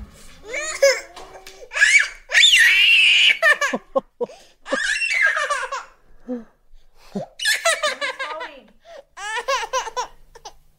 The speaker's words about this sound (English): So we'll put on our headphones and let's just have a listen to what this tantrum sounds like.